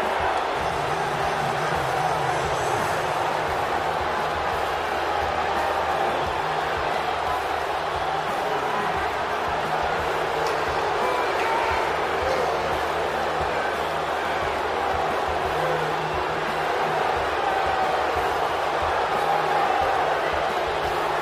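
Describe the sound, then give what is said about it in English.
A wrestling arena audience gives a mixed reaction. A dense, unbroken roar of crowd noise, blending cheers and jeers, holds at a steady, loud level throughout. “Mixed reaction from this audience here.”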